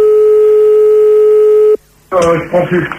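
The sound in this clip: A telephone line tone plays while a caller is being called back: a steady, unbroken hum with bright overtones that cuts off abruptly partway through. After a short silence, voices start talking.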